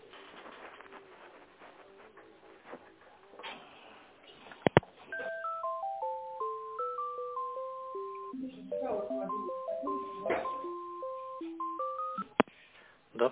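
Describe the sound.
Touch-tone keys are dialed for an outgoing business sales call, producing a long run of short, stepped electronic beeps at shifting pitches. The beeps are fairly quiet and follow muffled talk at the start.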